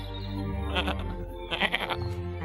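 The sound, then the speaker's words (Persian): Sheep bleating: a loud, drawn-out, quavering bleat with a warbling, tremulous tone that repeats in a couple of wavering pulses, with no talk. “تو یه گوسفندی؟”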